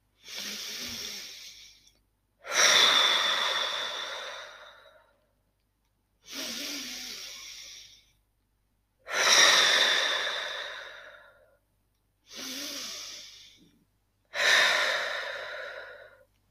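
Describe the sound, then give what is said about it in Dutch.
Slow, deep breathing during a guided relaxation exercise: three unhurried inhale-and-exhale cycles, each a short airy intake followed by a longer, fading breath out, with clear pauses between them and no talk. “Adem maar eens even 3 keer in en uit.”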